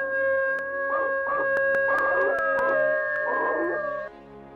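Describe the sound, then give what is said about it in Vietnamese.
Drawn-out, eerie howls from a dog-like zombie creature in a horror tale, several wavering cries over a steady tonal drone, punctuated by a few sharp ticks. “trước mặt của Hằng, một thây ma người chó nhìn rất đáng sợ, với hai con mắt bị chọc mù. Nó đứng đó và rú lên từng tiếng ghê rợn.”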